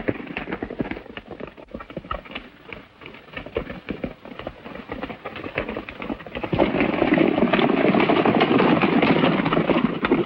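Horses galloping at a furious pace: quick, rhythmic hoof clatter fills the first part, then a louder, denser rushing wash of noise takes over and holds to the end.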